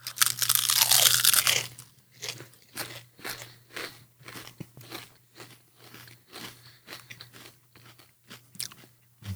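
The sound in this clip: Lay's potato chips, a Szechuan chicken flavor, crunched and chewed: a loud crackling bite at the start, then many quieter, rhythmic crunches of chewing continue throughout, with no talking.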